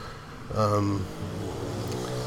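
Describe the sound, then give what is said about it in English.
Dirt bikes ride up and down outside. A buzzing engine drone swells at about half a second, then holds as a steady, moderately loud rumble. “Excuse the background noise. I got some people that like to ride. If you heard that, I don't know if you did or not, but they like to ride dirt bikes up and down through here.”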